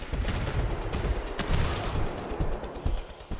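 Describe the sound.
Gunfire from a gun in the video game GTFO: many rapid, sharp shots in quick bursts, loud and dense over a rumbling low background.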